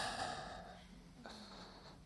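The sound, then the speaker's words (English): A deep breath drawn in, a soft, airy hiss lasting under a second, faint over a low sustained tone. “Let's breathe in.”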